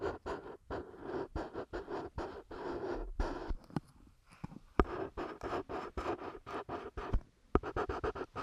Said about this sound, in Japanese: 私がね、よく色紙のサインをしているので、それでね、この色塗りの音とかを配信してるんですよね。